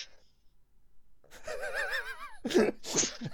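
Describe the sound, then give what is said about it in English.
A human voice imitating the sound a freezer makes: a wavering, warbling hummed tone lasting about a second, followed by two short breathy bursts. “that was the best freezer impression”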